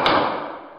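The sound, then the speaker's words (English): A single gavel strike, one sharp knock with a short decaying ring after it, heard alone. “This is the sound of a gavel on that one.”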